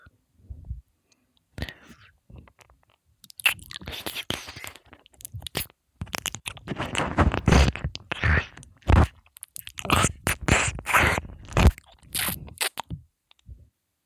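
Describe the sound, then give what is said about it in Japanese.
Wet ear-licking mouth sounds from an ASMR recording, with many irregular close smacks, slurps and soft crunchy clicks, faint at first and then denser. “耳ってさ、舐められると音が直接脳に響いてさ、腰に来ない？”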